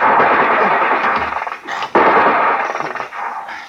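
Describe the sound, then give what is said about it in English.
.50 caliber machine gun firing in rapid bursts, a loud, dense rattling stream of shots that breaks off briefly midway and then resumes with distinct rapid reports. “Oh, it's 50 caliber. I wish they would send boarders, then they'd stop firing.”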